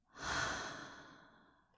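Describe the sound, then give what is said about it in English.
Slow human breathing: one soft, airy breath that swells quickly and then fades gradually over about a second and a half, faint and alone with no speech. “Try breathing it with me, okay? Breathe in. And breathe out.”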